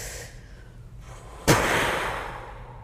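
A deep breath is drawn in during a breathing exercise. Faint, airy breath noise is followed by a sudden stronger rush of air midway through, which then slowly tapers off.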